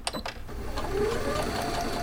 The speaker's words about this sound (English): As long as there's a need for these gowns, I'll be sewing them.